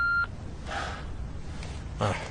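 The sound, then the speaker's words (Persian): An answering-machine beep sounds before a message is left: one short, clear electronic tone right at the start, followed by quieter, noisy background. “لطفا بعد از بوق پیغام بذارید”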